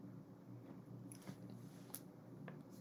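Faint biting and chewing of an ordinary apple, a few small crisp clicks and crunches scattered over a steady low background hum.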